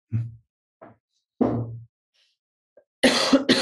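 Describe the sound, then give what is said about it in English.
Coughing and throat clearing from something caught in the throat after caffeine: a few short, harsh bursts separated by pauses, then a longer, louder rasping burst at the end. “Excuse me. I got something in my throat. Leftover caffeine.”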